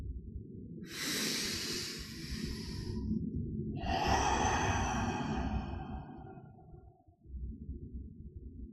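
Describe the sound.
A slow, deep breath: a long airy inhale followed by an even longer exhale that fades out, over a steady low drone.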